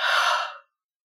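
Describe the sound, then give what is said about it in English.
A single deep exhale: a clearing breath let out after a nasal inhale during a calm yoga practice. It comes as one soft, airy, breathy whoosh lasting just over half a second and fading out, with no talking. “take one more of those clearing breaths with me, if you'd like to join, you'll inhale through your nose now. And then let that breath go.”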